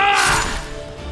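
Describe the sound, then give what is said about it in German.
A single sharp crash from a sword fight hits hard at once and then rings and fades away over about a second. “AG zückt das Schwert. Kämpft wie ein alter Recke.”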